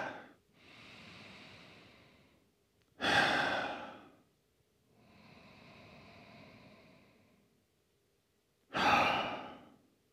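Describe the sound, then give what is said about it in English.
Deep breathing during a yoga class: two slow cycles, each a long, soft, airy inhale followed by a louder, short sighing exhale, with quiet pauses between. “And I just want you to feel that for a few moments, a few deep breaths.”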